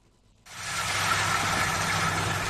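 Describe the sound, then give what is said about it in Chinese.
A large combine harvester runs at full power through a rapeseed field in Shexian County, Huangshan, Anhui, its steady broad mechanical roar starting abruptly after a brief quiet moment and holding constant. “在安徽黄山市歙县镇村镇梅村的油菜田里，大型收割机正开足马力穿梭作业，一笼笼油菜被快速卷入机身”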